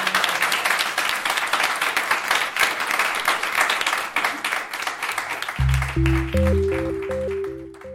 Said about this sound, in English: A big round of applause for